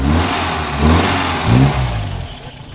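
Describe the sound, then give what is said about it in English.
A 1954 MG TF 1500 car engine starts up and runs with a low, throaty rumble, swelling twice in short revs before settling back to a rough idle. “that's the sound of an MGTF starting up. 1500. An MGTF 1500.”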